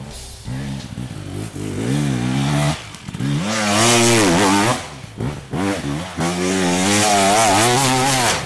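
A motorcycle engine revs hard during enduro practice, the rider pushing the bike ahead of an enduro competition. The loud, buzzing engine note climbs and falls repeatedly, with several short drops between bursts of throttle.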